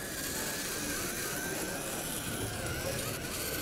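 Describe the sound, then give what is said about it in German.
An insect-like robot built for a maker conference's exhibition hall drives in circles following a white line, giving off a faint, steady whirring motor hum with an even, continuous level and no distinct events. “Das ist so ein wildes, insektenähnliches Teil, was auf einer Straße im Kreis fährt, immer einer weißen Linie nach.”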